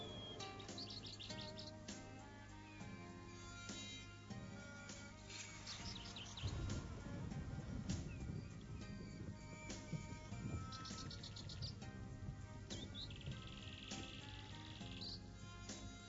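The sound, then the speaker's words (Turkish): Birds chirp and tweet around the Kaaba, with many quick high calls scattered through the whole stretch over a steady, softer background hum. “Kuşlar ne güzel uçar Kabe'nin etrafında. Ne garip sesler çıkarırlar.”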